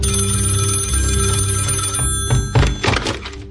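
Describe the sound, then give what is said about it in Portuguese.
A telephone rings in a few short bell bursts toward the end, rising out of a steady tonal hum that fills the earlier part. “da Elis, nós ligamos para a casa dela e os filhos realmente não sabiam de nada”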